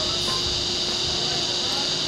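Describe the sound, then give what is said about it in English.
Cicadas buzz on a hot August afternoon in a steady, unbroken high-pitched drone that holds at an even level throughout. “As the cicadas buzzed on a hot August afternoon, Hack Bartholomew”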